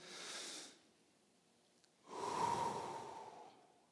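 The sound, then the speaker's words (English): Slow, deep human breathing, soft overall: a short airy inhale, a pause, then a longer, fuller exhale that gradually fades away. “Let's take in a deep breath and let it out slowly, okay?”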